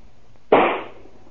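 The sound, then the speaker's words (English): A rifle fires once in a yard: one sharp, loud crack with a brief decaying tail, standing alone against quiet background. “Joe, is that you out in the yard? Yeah, sure, Jeannie. Come on out and watch the fun. Why are you shooting that rifle?”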